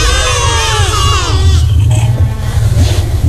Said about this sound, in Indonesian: Suara kambing.